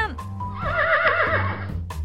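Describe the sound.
A light-blue horse with pink polka dots neighs, a single shrill, wavering whinny over a steady low background.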